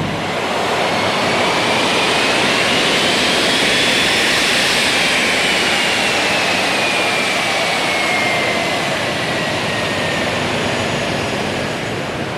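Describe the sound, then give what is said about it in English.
Jet engines of a DC-8 cargo plane on the runway in Greensboro, North Carolina, before takeoff: a loud, steady roar that never lets up, with a faint high whine riding on top. “I'm your host, Christy Graham, and what you're hearing is our DC-8 cargo plane on the runway in Greensboro, North Carolina, getting ready for takeoff to Italy”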